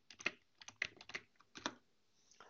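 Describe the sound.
Typing on a computer keyboard while writing text into a new word-processor document. An irregular run of quick, crisp key clicks comes in short bursts with brief pauses between them. There is no talk.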